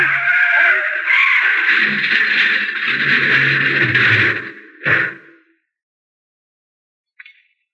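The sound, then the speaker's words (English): A car tire blowing out and the car skidding while fleeing gunfire in an audio drama: a long, harsh grinding screech followed by a short, loud burst, then silence and a faint click. “Hit the gas. If we can make that next bend in the road. Ah, there goes a tire.”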